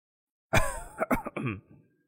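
An old man coughing: a few rough, harsh coughs with some throat clearing in quick, uneven bursts, loud and with no other sound around them.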